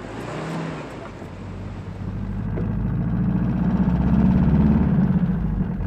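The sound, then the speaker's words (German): A jeep engine rumbles low and steady as the vehicle drives, the sound swelling gradually louder through the second half. “Ein Jeep.”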